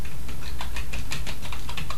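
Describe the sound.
Typing on a computer keyboard: many quick, crisp keystrokes patter at an uneven but steady pace over a constant background hiss, with no talking.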